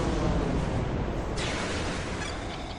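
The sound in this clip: A smart bomb explosion in a video game, heard as a loud, sustained roar of dense noise that holds steady, then eases slightly toward the end.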